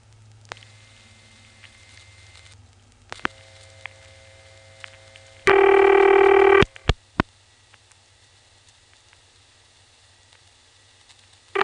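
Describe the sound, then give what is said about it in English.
Dialing on a telephone line through an older XY step-style switching exchange: a faint hum, then a loud sustained tone lasting about a second, followed by a few sharp clicks before the line falls quiet. “Anyway, let me dial the rest of the number now.”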